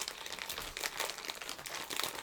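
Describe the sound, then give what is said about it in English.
Tape peeled off a package: a continuous crackling and crinkling made of many small, sharp bursts at a fairly low level, with no talk. “Looks like I have to open it from this side. There's a little piece of tape I have to undo.”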